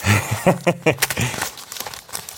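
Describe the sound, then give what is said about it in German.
A paper envelope is torn open with a quick series of crinkling, ripping bursts, loudest at the start, then softer rustling as the tearing trails off. “Mach mal auf. Also so viel zu, diese Umschläge gehen jetzt einfacher auf.”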